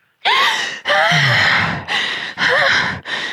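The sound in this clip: A person gives deep, desperate gasps for breath while being revived, a series of five loud, ragged, voiced inhalations in quick succession.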